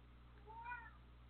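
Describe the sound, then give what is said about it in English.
A single cat meow, a short drawn-out harmonic cry, faint and alone over a steady low background hum. “That was Hooks the Cat, everyone.”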